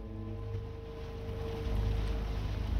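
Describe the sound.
A motor yacht's engine drones as the boat cruises through rundown industrial docks, giving a steady, low, humming rumble with a faint tonal whine. It swells slightly louder toward the end, with no voices.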